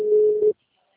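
A steady telephone ringback tone sounds while a call is placed, one sustained mid-pitched tone of about half a second that cuts off into silence, followed by a brief faint click.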